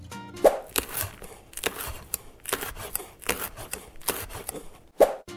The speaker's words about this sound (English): Onion. You're cutting onion.